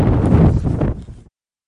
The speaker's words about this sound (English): Often, you can't hear them over the wind.